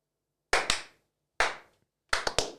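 Flamenco-style rhythmic hand clapping: six sharp, loud claps in separated groups of two, one and three, with silence between the groups.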